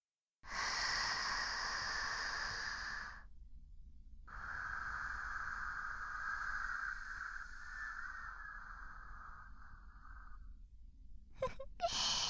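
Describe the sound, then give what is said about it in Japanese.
A slow deep breath: a loud, rushing inhale of about three seconds, a short pause, then a long, steady, breathy exhale lasting around six seconds, and finally a few brief faint noises. “だから深呼吸してみよう。”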